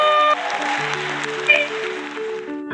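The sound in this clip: An audience applauds and cheers as a guest comes onto a live show stage. The steady, dense clapping starts right after a loud musical chord, and tonal music plays underneath it throughout.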